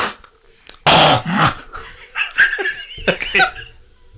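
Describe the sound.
Throat clearing: one loud, harsh, rasping burst, then softer throaty rumbles and short breathy sounds, with no talking.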